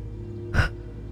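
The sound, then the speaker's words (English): A single sharp intake of breath, brief and gasping, from a man pausing while reading aloud, rising out of a steady low hum and fading quickly. “I'm going to catch my breath here.”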